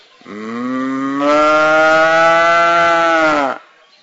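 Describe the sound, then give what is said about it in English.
A human voice imitates a cow mooing in one long, drawn-out low note of about three seconds that swells louder partway through and then cuts off, with nothing else audible. “Little black and white and yellow and red and speckled cows are walking along her banks and going,”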